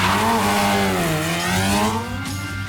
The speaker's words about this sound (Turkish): İkisi de spin atıyor. Yavda ters yöne bakıyor şu an.